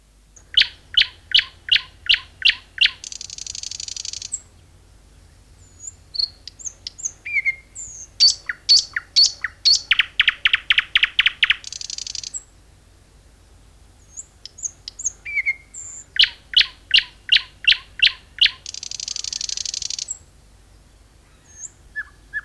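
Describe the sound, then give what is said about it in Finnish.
Garden warbler song: sharp, rapid notes repeated in quick series, broken up by buzzy trills. The phrases return several times, clear and fairly loud, with no talking. “Lehto Kerttu.”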